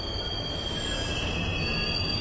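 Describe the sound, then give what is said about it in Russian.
A metro train approaching the platform gives a loud, steady rumble with a high, thin wheel squeal that persists throughout, with no voices. “Это к платформе приближался поезд.”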